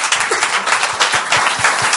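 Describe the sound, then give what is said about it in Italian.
Audience applause at an evening event, many overlapping claps merging into a dense, steady patter that holds at even loudness throughout. “22 dicembre, un applauso di nuovo.”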